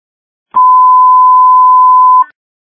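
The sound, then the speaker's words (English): A telephone ringtone sounds as one steady, pure electronic tone, mid-pitched and loud, held for just under two seconds with no voices around it. “ringtone.”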